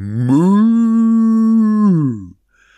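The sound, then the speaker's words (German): A cow moos loudly in one long, sustained call that holds a steady pitch and drops away at the end, heard alone and followed by near silence. “Das ist eine richtige Kuh und die sagt ganz laut”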